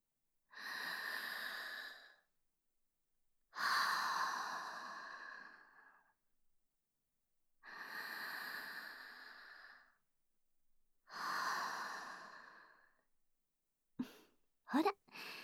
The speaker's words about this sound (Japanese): 一旦落ち着こっか。それじゃあ、深呼吸。